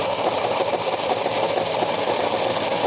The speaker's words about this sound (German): Olivenöl habe ich nämlich auch reingemacht. Und, und das jetzt püriere ich nochmal kurz.